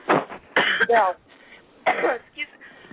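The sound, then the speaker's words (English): A few short, rough coughs and throat-clearing bursts from an adult, spaced unevenly across a few seconds, moderately loud, with brief quiet gaps between them. “excuse me, I'm coughing.”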